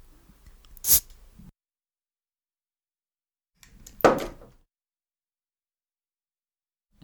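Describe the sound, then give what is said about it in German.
Opening a bottle of beer with a bottle opener gives two short, sharp bursts separated by a few seconds of silence. The second burst is slightly longer and fuller than the first. “Jetzt mache ich mir mein zweites Bier auf. Das erste war so schnell leer.”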